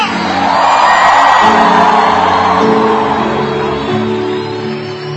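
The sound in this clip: A crowd shouts a victory cry at a church audience in Argentina: a loud, sustained roar of many voices lasting about five seconds, easing slightly toward the end.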